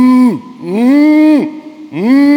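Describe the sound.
A human voice imitating cows lowing, giving three long, loud moos; each swoops upward, holds, then drops away at the end.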